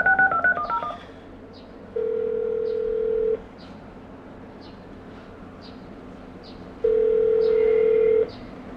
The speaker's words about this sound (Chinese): 现在是坐在电脑前通过 IP 电话直接交流。